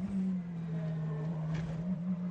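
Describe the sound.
A Porsche race car's engine crossing the finish line at a race, a loud, steady, buzzing drone held at an even pitch throughout, with no voices.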